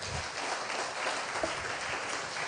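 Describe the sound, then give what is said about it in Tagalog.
A church audience at a service in Sto. Tomas, Batangas applauds the Lord, steady, even clapping from many hands that holds throughout at a moderate level. “Pwede mo nating palakpakan ng Panginoon.”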